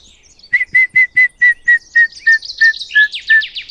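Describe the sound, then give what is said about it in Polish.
A grey-headed woodpecker's territorial call rings out as a long series of clear, evenly spaced whistled notes that gradually fall in pitch and slow slightly, loud against a quiet background. “To był właśnie głos dzięcioła, głos terytorialny dzięcioła zielono-siwego.”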